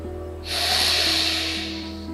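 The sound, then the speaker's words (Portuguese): A slow, steady exhale through the nose during a relaxation breathing exercise. It is a soft, breathy hiss that swells and then gradually tapers off over a constant low hum. “solta o ar pelo nariz bem devagar, relaxando os ombros, relaxando o pescoço”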